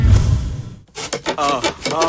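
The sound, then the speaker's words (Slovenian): A bed frame creaks in a few drawn-out, wavering squeaks that repeat in a rough rhythm after a low rumble at the start. “Vam postelja škripa?”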